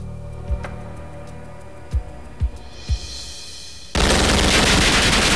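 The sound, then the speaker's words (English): Gunfire as a gunman opens fire on a door inside an infirmary. Four separate sharp shots ring out at uneven intervals, then a sudden, loud, continuous burst runs to the end. “Meanwhile, nearby, another 49er is searching part of the infirmary when the first opens fire on the door.”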